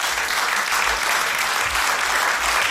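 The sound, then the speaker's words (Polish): Dense audience applause for the guest performers, loud and even throughout with steady clapping and no talk. “Wielkie brawa.”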